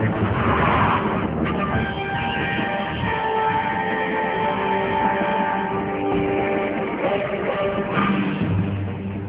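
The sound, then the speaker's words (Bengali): Continuous engine drone and road rumble of a car speeding along an open road, a steady loud wash of motor noise with no pauses, holding roughly even throughout. “জ্ঞান হবার পর প্রথম শুনতে পেল গাড়ির শব্দ, অন্ধকারের মতো খোলা রাস্তা দিয়ে ছুটে চলেছে ওরা।”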